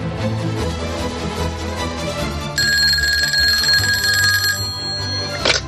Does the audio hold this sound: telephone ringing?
yes